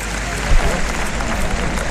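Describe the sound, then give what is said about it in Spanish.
A bullfight crowd gives the picador an ovation, a steady, dense roar of clapping and cheering throughout, with a commentator talking over it. “la ovación que escuchan es para”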